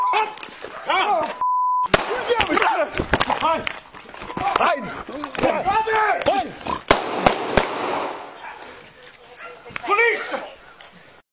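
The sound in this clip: Gunshots ring out as a few sharp, loud cracks, clustered mostly late, between bursts of frantic shouting voices.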